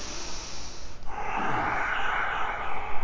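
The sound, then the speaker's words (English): Nasal breathing during a guided breathing exercise gives a soft, airy hiss of air through the nose that swells into a longer, steady rush, heard alone and at a faint level. “Breathe in and out through your nose.”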